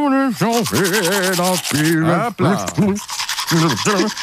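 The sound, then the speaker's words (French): A man brushing his teeth with a toothbrush while humming a pop song: rhythmic scrubbing strokes run beneath a clear hummed melody, broken by a few short pauses. “prend la brosse à dents et chantonne en même temps, et ça donne ceci.”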